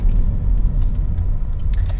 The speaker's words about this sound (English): I do these little 10 minute talks as I'm driving, usually to work.